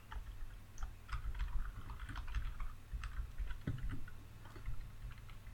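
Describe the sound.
Keyboard typing as someone writes out an answer: many quick, light key clicks in an uneven patter, faint and steady, with no voices.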